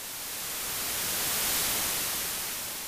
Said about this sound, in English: Whenever you hear static in the room, you turn and see that the broken television set